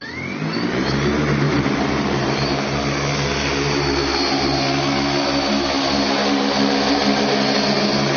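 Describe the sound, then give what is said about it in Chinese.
A heavy-lift Z8L-50 firefighting and cargo drone, rated for 50 kg loads, flies with a loud, continuous engine-and-rotor drone that fills the whole clip. A whining tone climbs in pitch at the start, then the sound stays even. “就这个无人机它主要的作用是什么？ 科威泰 Z8L-50 主要作用是用于物资统送和灭火抛投”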